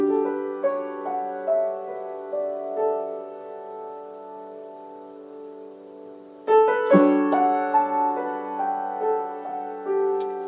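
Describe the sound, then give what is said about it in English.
A melodic instrumental piece in raga Kalyani, close to the Lydian scale, moves through sustained, gliding notes over a steady drone. Around two-thirds of the way in, a louder and fuller passage enters with busier, more ornamented phrases. “So when I compose pieces in Kalyani, which is akin to the Lydian scale, and one of my pieces sounds like this.”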